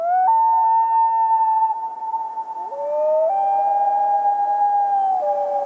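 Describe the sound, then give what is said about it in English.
Common loon giving its wail call, a long, mournful, wolf-like howl: pure sustained tones that slide up into held notes and step between pitches, with faint overtones, loud and alone. “what bird call resembles the howl of a wolf?”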